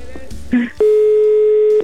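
An unanswered telephone call, with brief muffled noises and a short higher tone, followed by a long steady ringback beep at one pitch lasting about a second before it stops.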